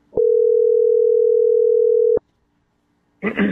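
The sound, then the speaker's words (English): A steady telephone dial tone drones at one low, even pitch for about two seconds and then cuts off, followed by silence and a brief burst of a voice speaking. “All right, who's dialing?”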